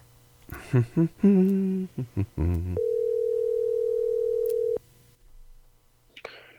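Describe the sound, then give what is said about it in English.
A phone call being dialed and ringing: a few short, mid-pitched keypad tones in quick succession, then one long, steady tone held for about two seconds before it cuts off. The whole sequence is quiet, and faint noise follows. “Well, I'm going to dial right now, and I think it's 50-50 whether he picks up.”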